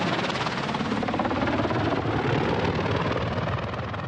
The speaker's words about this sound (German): So klein ist der Landeplatz, dass der Hubschrauber gar nicht richtig aufsetzen darf.